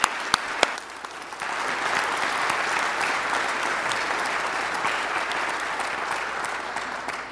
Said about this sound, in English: so if you would, let's put our hands together and welcome Jessica.